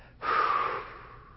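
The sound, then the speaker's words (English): A single strong exhalation during a chest examination: a breathy rush of air that begins abruptly, peaks quickly, then fades gradually over about a second, heard alone. “But what you can do is you have the person breathe out.”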